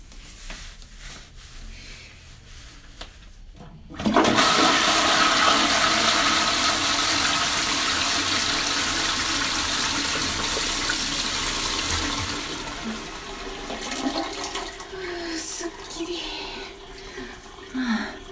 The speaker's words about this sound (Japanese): じゃあ流します。